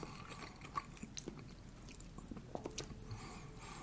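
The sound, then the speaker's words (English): Someone chews an A&W bison burger with faint, moist squishing and soft crunches, broken by a few small bites, with no talk. “A&W, you've done a good job this time out with the bison burger. I am highly enjoying it.”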